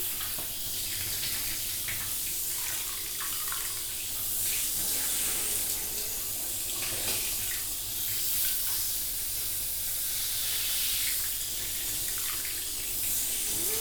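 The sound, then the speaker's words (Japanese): Running water rinses human shampoo off during a wash, a continuous soft hiss that stays faint and even throughout, with no voices. “人間用シャンプーだし、しっかり流さないといけないからね。”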